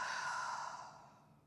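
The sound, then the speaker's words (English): An open-mouthed exhale during a breathing exercise: one soft, breathy rush of air that starts full and gradually fades out, heard alone with no talking. “Deep inhale. Open mouth, exhale.”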